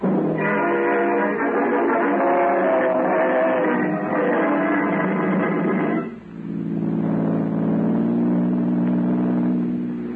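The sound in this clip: A car engine drives off with a loud, steady droning hum, then dips briefly partway through and carries on at a lower pitch.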